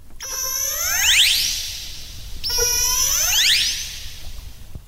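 Orca communication calls: two loud pulsed calls, each a bright stack of harmonics sweeping in pitch, separated by a short gap with no voices.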